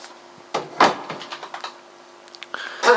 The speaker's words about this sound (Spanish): Cierra la puerta